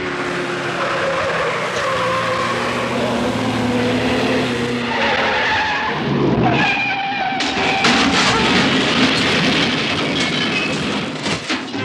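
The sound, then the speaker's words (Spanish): A truck's tire blows out and the vehicle skids out of control, then crashes into a wall and overturns: a loud sustained roar of engine and skidding gives way to a run of sharp, harsh bangs and clatter in the second half. “Calimán, ocasionando un reventón. El hombre increíble ha perdido el control del vehículo y este se estrella contra un muro, volcándose luego.”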